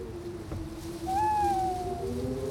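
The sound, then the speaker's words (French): An owl from the Northumberland forest gives a single drawn-out hoot with a slightly falling pitch. A low, steady tone holds underneath throughout. “C'est une chouette. Pas n'importe laquelle, évidemment. Une chouette de la forêt de Northumberland.”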